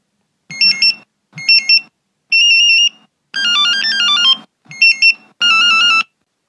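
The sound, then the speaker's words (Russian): A telephone rings with an electronic melodic ringtone in six short bursts of high, bright beeping tones separated by brief gaps, with no talk. “Через несколько секунд телефон зазвонил.”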